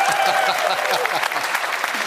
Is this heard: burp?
no